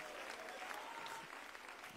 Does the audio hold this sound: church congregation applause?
yes